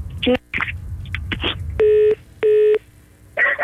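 Two short, evenly spaced telephone tone beeps, steady in pitch, heard over background noise while a call is being made.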